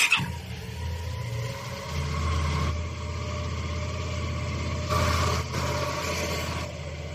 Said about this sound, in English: This is the sound of my motorcycle, one of the most beautiful sounds I know in the world.